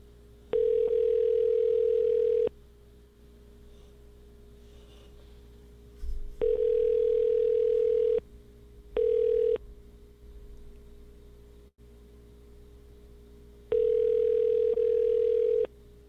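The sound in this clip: Telephone dial tone: a steady mid-pitched hum sounding in four separate bursts, three lasting about two seconds and one much shorter, with quieter stretches between them.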